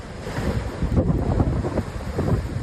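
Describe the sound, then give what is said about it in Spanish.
Wind and waves from storm Herminia in Spain, with gusts over 160 km/h and waves up to 12 metres: a continuous loud, rushing roar with wind buffeting the microphone and surging low surf. “Así suena, cielos de un gris oscuro en prácticamente toda España, rachas de viento que han llegado a superar los 160 kilómetros por hora y olas de hasta 12 metros.”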